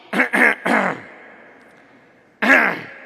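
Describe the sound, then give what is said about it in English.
Harsh throat clearing from someone with something stuck in the throat: three quick rasping bursts in a row, a short pause, then one final longer clearing. “Sorry, I have something stuck in my throat”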